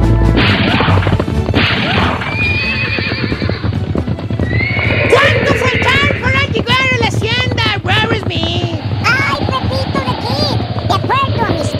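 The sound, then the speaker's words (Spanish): Horses gallop at full speed with rapid clip-clop hoofbeats, loud whinnies and neighs rising over the top, and occasional crashing thuds, all dense and continuous throughout. “iban mi gran tío Pepito de Kid y su gran amigo el Rorro Smith, cabalgando allá por el viejo este a todo galope”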